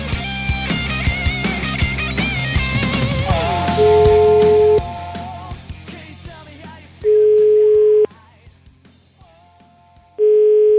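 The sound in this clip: Outgoing telephone call ringing tone: three steady, mid-pitched tone bursts of about a second each, separated by longer pauses and preceded by a busier stretch of mixed tones.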